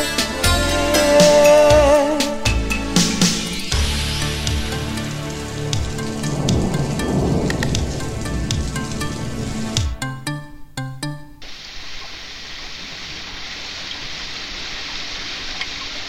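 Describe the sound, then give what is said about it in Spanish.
Rain falling on an old house on an old mountain, coming in through an old window pane: a steady hiss of rain under music at first, then continuing alone in the final seconds. “y la lluvia entró a la vieja casa por el viejo cristal en la vieja montaña. La lluvia entró”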